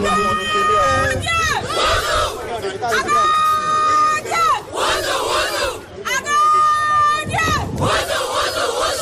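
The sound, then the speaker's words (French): Benin's U20 women's football team shouts its battle cry together in front of supporters welcoming them after World Cup qualification. Loud, pitched group chants come in repeated bursts, with crowd noise and chatter filling the gaps between them. “Regroupées devant le public, les Amazones U20, habillées en t-shirt blanc griffé, Pologne 2026, on y est, lancent ensemble le cri de guerre.”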